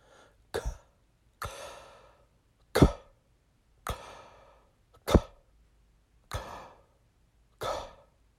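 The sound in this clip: Breathing exercise for throat and mouth: seven sharp, breathy bursts, each opening with a soft k-like click and trailing off into an airy exhale, evenly spaced with silence between.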